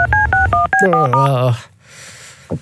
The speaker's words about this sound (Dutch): Oké, dus slager. We gaan slager bellen,